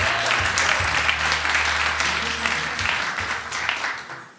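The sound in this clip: Audience applause welcoming a contestant onto a trivia quiz, a steady wash of many hands clapping that holds level, then tapers off at the end.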